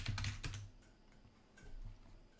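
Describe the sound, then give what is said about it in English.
Faint typing on a computer keyboard as a search is entered: a quick burst of keystrokes, a short pause, then a few more taps. “Maybe then type in like salary. Versus salary.”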